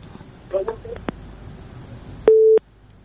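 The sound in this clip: Telephone line tones while a caller is being connected to a phone-in: a few short beeps, then one steady, loud tone lasting about a quarter second, with faint talk underneath.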